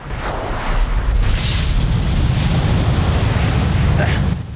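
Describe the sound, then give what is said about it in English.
A heavy explosion sound effect accompanies a rotting skeletal body bursting apart in a flash of white light, giving a loud, dense, rumbling roar that holds for over four seconds before easing off at the end. “Shang Tsung's body rots, turns into a skeleton, and explodes in a burst of white light.”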